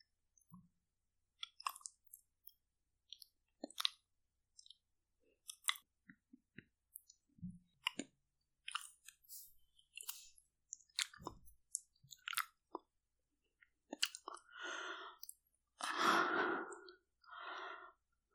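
Licking with wet mouth sounds: many soft, scattered clicks and smacks at a quiet level, giving way to longer breathy, wet passages toward the end.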